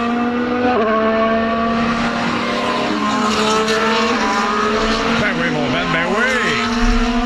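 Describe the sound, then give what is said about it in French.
Race car engines roar on a racing circuit in a loud, continuous, high-revving drone that holds a steady pitch, then swoops down and back up toward the end. “On se sent au circuit Gilles Villeneuve. Là. C'est ça que je voulais. La magie de la radio, le théâtre de l'imaginaire. Je m'ennuie du son des V10, des V8.”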